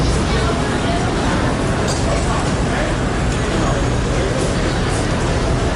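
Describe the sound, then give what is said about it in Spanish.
Morning street traffic in Manhattan, New York City: a dense, steady roar of vehicles with an indistinct murmur of crowd voices mixed in, holding an even, loud level throughout without distinct individual passes. “Este es el sonido de Nueva York a las 8:30 de la mañana del 11 de septiembre de 2001.”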